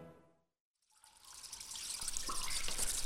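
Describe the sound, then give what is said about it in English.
Running water from a tap while dishes are washed up: after a brief silence, a steady hissing trickle starts and grows louder and fuller. “You did the washing up, didn't you? I thought you did the washing up. Oh. The washing up!”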